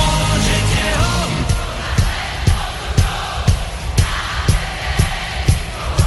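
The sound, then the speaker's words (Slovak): A concert audience roars and yells for a hit song, a loud, continuous crowd din punctuated by steady, evenly spaced rhythmic thumps throughout. “je to hit, pri ktorom publikum na koncerte najhlasnejšie reaguje. Tu je dôkaz.”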